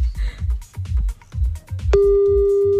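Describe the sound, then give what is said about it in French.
A telephone ringing tone sounds while a call is placed: a few rhythmic, bass-heavy beats of music give way to a single steady, loud tone that holds unbroken to the end. “On l'appelle maintenant.”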